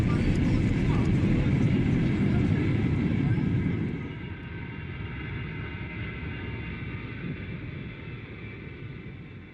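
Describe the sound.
An airplane taxis in and comes to a stop: a loud, broad engine roar that drops sharply in level partway through, then settles into a steady, quieter hum.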